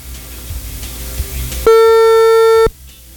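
Telephone ringback tone of an outgoing call, one steady buzzy tone lasting about a second, loud against a low background hum before and after.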